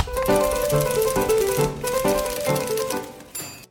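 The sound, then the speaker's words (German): Typewriter typing on an early twentieth-century office machine: a dense, rapid clatter of keystrokes running steadily throughout, with a tonal hum underneath and the sound stopping just before the end. “Mit dem Einzug der Schreibmaschine um 1900 stand nicht nur ein neues, effektives Arbeitsgerät zur Verfügung, sondern es entwickelte sich auch ein neues Berufsbild.”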